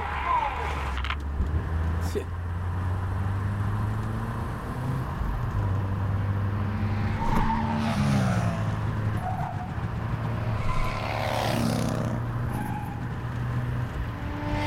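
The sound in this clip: Cars travelling on a road: a low engine hum drones throughout, and a few vehicles swish past along the way.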